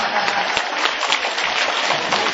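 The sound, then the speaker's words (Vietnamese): Audience applause, a dense, steady patter of many hands clapping at an even level from start to finish, with no single voice standing out. “Vỗ tay đi.”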